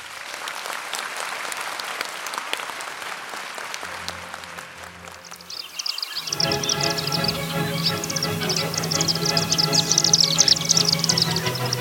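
Dusky needletail swifts give shrill, high twittering calls in a dense, continuous chorus of many rapid notes, starting after several seconds of steady applause.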